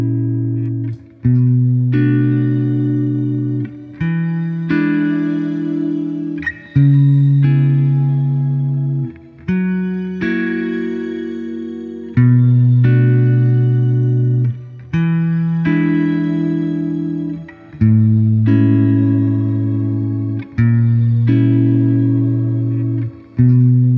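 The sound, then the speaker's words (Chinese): Shimmer reverb from an effects unit, the kind common in post-rock: sustained, swelling chords that change in steps every few seconds, each one fading into a bright, airy wash that hangs in the air. No one speaks. “第一种叫做 shimmer，这个呢，经常会被用在后摇里面。我们来听听看这个所谓的shimmer效果是什么样子的。”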